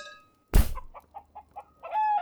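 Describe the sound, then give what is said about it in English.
Clucking of a Eustropian fire chicken: a sudden loud burst, then a few short, sharp clucks in quick succession, ending with a longer, higher-pitched call. “There you go. The Eustropian fire chicken. It's quite the delicacy.”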